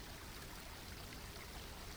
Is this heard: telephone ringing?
no